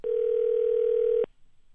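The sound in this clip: Steady telephone dial tone as a call is placed, one even, unwavering pitch held for just over a second before it cuts off abruptly into near silence.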